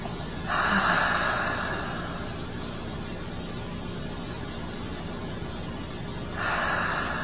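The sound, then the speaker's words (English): Deep breathing in and slow exhaling: two soft, breathy rushes of air, one near the start and one at the end, over a steady background hiss. “A deep inhalation, a gentle sighing exhalation.”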